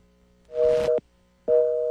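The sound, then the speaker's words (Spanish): Busy tone after a dropped phone call: two loud, steady, mid-pitched tone bursts separated by a short silence, the second running to the end. “lamentablemente se perdió la llamada de una oyente”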